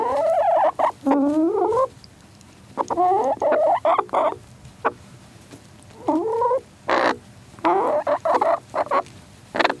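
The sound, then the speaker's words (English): Three chickens clucking loudly, with many repeated harmonic calls that often slide upward in pitch. The calls come in short bursts separated by brief pauses. “So that was a sound of a chicken, and actually three chickens making sounds”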